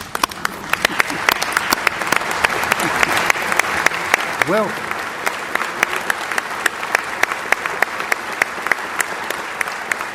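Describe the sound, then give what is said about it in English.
Sustained audience applause at a formal evening address as honored guests are asked to stand. Dense, even clapping continues the whole way through, with sharp individual claps popping out and a brief voice cutting in midway. “please stand and let's give them all a hand.”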